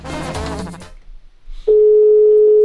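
A telephone tone sounds as a number is dialed: one steady, mid-pitched electronic tone holds for about a second, loud and even, after a short stretch of other sound.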